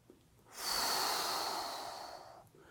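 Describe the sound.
A slow, deep breath drawn in during a guided relaxation exercise: one soft, airy hiss that swells within half a second, holds for about two seconds and then tapers away, alone without talk.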